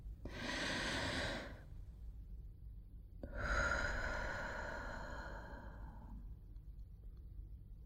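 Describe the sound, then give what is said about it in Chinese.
A slow, deep breath taken during a guided relaxation, heard as two soft, airy rushes of breath separated by a short pause, the second longer and gradually fading; quiet and alone, with no voices. “来，和我一起做一个深深的呼吸，像这样。”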